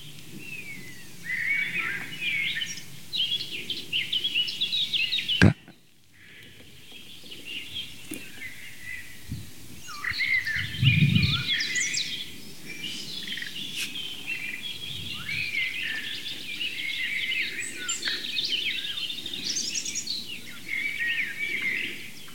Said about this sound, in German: Das helle, amselartige Flöten, schnell vorgetragen von der Mönchsmücke.